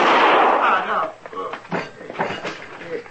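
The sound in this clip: A single loud gunshot from a gun bursts at the start and fades over about a second, followed by people talking.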